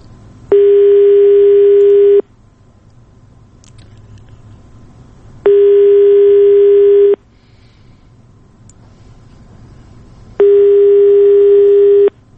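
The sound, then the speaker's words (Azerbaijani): A telephone ringback tone sounds on a phone line while a call waits to connect: three long, steady mid-pitched tones, each about two seconds, separated by longer silent gaps. “Biz hələ də telefon xəttindəyik və gözləyirik ki, Fuad Muradovla əlaqə yarada biləcəyik.”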